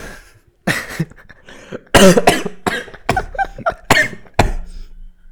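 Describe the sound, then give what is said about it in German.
Harsh, forceful coughing from someone choking on their own saliva, a rapid run of several loud coughs with short gasping gaps between them and no speech. “Ich habe mich verschluckt.”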